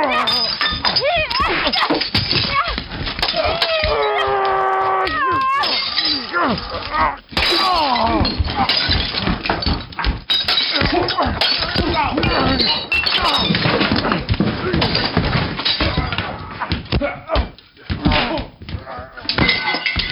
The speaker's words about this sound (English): Did you hear our fisticuff? Mm-hmm. Yeah, it was violent. It was pretty crazy. It was like Fight Club.